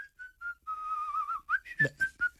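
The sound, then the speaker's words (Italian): A person whistles a bright melody alone: a few short notes, then a long held tone that wavers slightly in pitch, followed by a quick run of short, clipped notes. “e di qualcuno che fischia”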